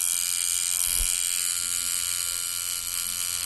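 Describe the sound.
A tattoo machine buzzes in a steady, continuous electric drone with a bright, harmonic edge. A single soft, low thump sounds about a second in, and the buzz holds evenly throughout.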